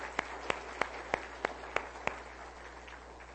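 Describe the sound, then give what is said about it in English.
Hand claps welcoming a guest at Hillcrest Baptist: seven sharp, evenly spaced claps ring out over a steady low hum, then quiet. “Let's give him another hand. A Hillcrest welcome.”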